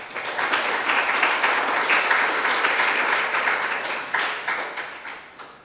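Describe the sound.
Applause welcoming a speaker from Greenpeace Southeast Asia at an evening talk on Indonesia's forests: dense, steady clapping from an audience that thins and fades over about six seconds.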